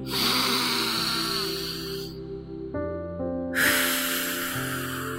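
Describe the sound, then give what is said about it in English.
Slow, deep breaths in and out during a calming exercise, with two long airy breaths separated by a brief pause over steady sustained musical tones. “When we take some deep breaths, it calms down our body and helps us get into our thinking heads.”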